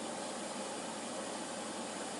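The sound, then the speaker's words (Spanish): Water rushes into a washing machine as a steady, even hiss that holds at a constant level throughout. “Hace esa comunicación del agua a la lavadora, ese sonido característico. Ahí. Y esperamos a que arranque.”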